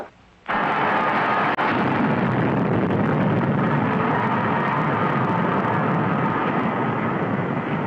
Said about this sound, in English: Clear of space station. We're in free fall. Firing rockets in 2 seconds.